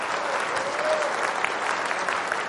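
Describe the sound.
A church audience applauds to welcome a newcomer, with dense, continuous clapping that stays at an even loudness throughout.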